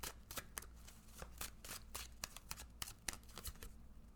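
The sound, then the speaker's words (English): Tarot and oracle cards are shuffled and pulled from their decks. Many quick, crisp papery flicks and slaps come in an uneven rapid rhythm, fairly faint and without talk. “So I'm going to pull a tarot card, and then I will also pull a sovereign oracle card.”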